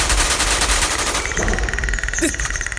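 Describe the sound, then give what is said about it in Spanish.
Rapid machine-gun fire in a radio drama firefight: loud, rattling bursts of fast repeated shots running almost continuously, with the rhythm loosening toward the end. “¡Ahí está! ¡Disparen! ¡Disparen!”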